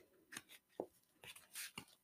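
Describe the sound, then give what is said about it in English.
Tarot cards being given a quick little shuffle: a series of soft, papery riffles and snaps in short bursts, fairly faint, with no talking. “we're just going to do a quick little shuffle”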